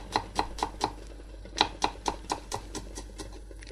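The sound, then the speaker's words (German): A knife chops food finely in a quick, even run of sharp taps with a brief pause partway through. The many crisp strokes stand alone with no talk. “Und tun mal die, wie gesagt, fein schneiden. Nach Möglichkeit. So fein wie ihr könnt.”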